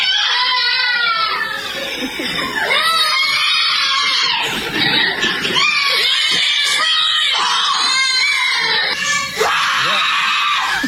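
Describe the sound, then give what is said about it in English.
Young children at a daycare center in Mississippi scream together in loud, high-pitched, overlapping shrieks that carry on without a break for the whole stretch. “That is some children from the Little Blessings Child Care and Daycare Center in Mississippi that on their way to a future therapist office”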